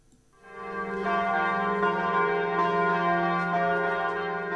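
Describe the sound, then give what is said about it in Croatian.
Orthodox church bells ring at midnight to mark Christmas, a rich, sustained metallic peal that swells in after a brief quiet start and then holds steady and loud with layered, overlapping tones to the end. “Zvona sa crkvenih hramova u ponoć simbolično su oglasila trenutak rođenja Sina Božijeg Isusa Hrista.”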